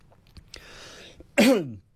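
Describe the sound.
A single harsh cough clearing something caught in the throat, loud and brief with a rough, falling tone, preceded by a softer breathy rasp against a quiet background.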